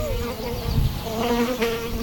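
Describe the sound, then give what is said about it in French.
Buzzing of a large fly with an elongated body, about a centimetre long, circling close by: a continuous droning hum that wavers slightly in pitch, heard on its own without talk. “On dirait une grande mouche avec un corps allongé. Elle doit faire un bon centimètre de long.”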